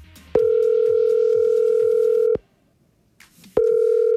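Ringback tone of an outgoing phone call placed from an app: a steady mid-pitched electronic tone held for about two seconds, a pause of about a second, then the same tone starting again.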